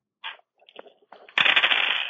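Dice roll on a table during a tabletop role-playing game: a few light, scattered clicks, then a sudden, dense rattling clatter that continues to the end.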